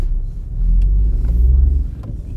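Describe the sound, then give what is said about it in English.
Deep, steady road and engine rumble from a car driving home after a football match, loud, low and continuous, with no talk over it. “As you can hear, we're driving back at the moment”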